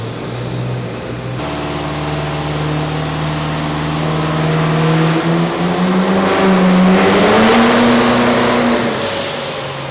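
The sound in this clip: A diesel pickup truck engine revs hard during a timed drag run as the driver struggles to keep it in the right gear. A shrill turbo whine climbs steadily in pitch over a rising engine roar, peaks loudest near the end, then eases slightly.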